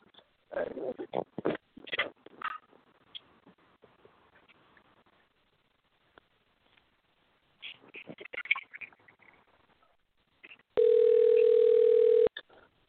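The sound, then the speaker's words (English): Telephone dial tone heard while placing a call: a steady, unbroken electronic tone sounding alone for over a second near the end, after a stretch of scattered faint clatter and low sounds. “All right, here, let me try to call Tank into the show.”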